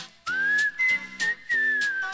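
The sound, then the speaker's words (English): Melodic whistling of a tune in a song, a clear, bright pitch moving through sustained and short notes over steady instrumental chords, with no voices. “And I'm in the mood for whistling.”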